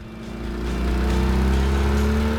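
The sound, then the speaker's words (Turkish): A sluggish car engine, just worked on for electrical trouble, revs as throttle is applied: a low, droning engine tone swells louder over the first second, then holds at a steady, strong level with no talk. “motorun pek neşesi yok gibi. Biraz gaz vermeyi dene.”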